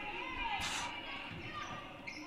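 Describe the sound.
A basketball being dribbled during a high school game, its muffled bounces repeating under a commentator's continuous play-by-play talk.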